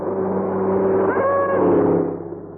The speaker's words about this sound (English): He was driving on the wrong side of the record.